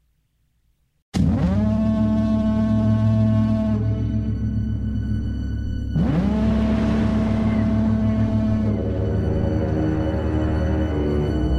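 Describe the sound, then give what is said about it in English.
Trailer audio from the film The Lighthouse: a deep, droning, horn-like tone swells in two long, harmonic-rich blasts after a brief silence, with no speech. “let's go ahead and let's play a trailer from this crazy-ass movie, The Lighthouse.”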